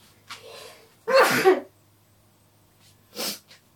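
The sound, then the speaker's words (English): A person sneezes once, sharply and loudly, with softer breathy sounds just before and after it. “Oh, I'm gonna sneeze.”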